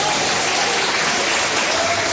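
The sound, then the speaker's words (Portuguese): A church audience claps for the Lord during a healing testimony. The clapping is a steady, even patter at moderate loudness that continues without a break. “Quem tá vendo, levanta a mão. Quem tá vendo, bate as palmas pro Senhor.”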